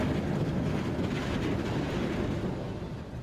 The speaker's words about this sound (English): it's the return of our train. I suppose we've missed it.